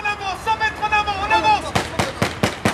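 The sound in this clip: Blank rounds crack during an urban combat exercise by French soldiers: a quick run of sharp, loud shots follows a stretch of talk.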